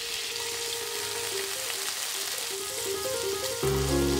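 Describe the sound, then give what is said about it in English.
Steady crackling sizzle of bacon and garlic sautéing in a pan over low heat for spaghetti carbonara, continuous and dense, with a soft melody underneath that grows louder near the end. “When it begins to sizzle, reduce the heat to low and saute the garlic until aromatic. Then add the bacon.”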